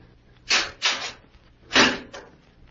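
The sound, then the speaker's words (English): A safe hidden behind a screen is opened with a few short, solid clunks and brief scraping bursts, spaced irregularly over quiet background. “There's a safe behind it. Yes. Now watch. I shall open it and you shall see.”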